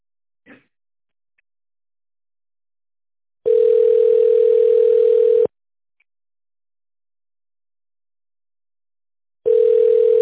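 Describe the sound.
Telephone line tone on a connected call to an office phone line: a steady, even, mid-pitched beep lasting about two seconds, then silence, then a second identical beep that is cut off at the end.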